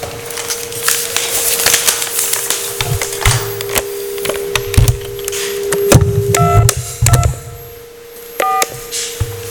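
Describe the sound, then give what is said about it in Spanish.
Telephone keypad tones as someone dials a Chinese restaurant, a few short beeps standing out near the end over steady clattering and rumbling noise, with no voices. “Así que vamos a improvisar algo llamando a un restaurante chino.”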